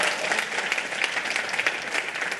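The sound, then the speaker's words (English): Audience applause for a man being called up, a steady, dense patter of many hands clapping at an even loudness from start to finish. “Big cheer for Alvin, because Alvin...”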